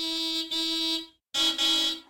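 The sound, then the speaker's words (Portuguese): Someone honks a car horn in two long, buzzy blasts at a steady pitch with a short silence between them. Each blast has a brief stutter in it. “E a resposta correta é... alguém a buzinar num carro.”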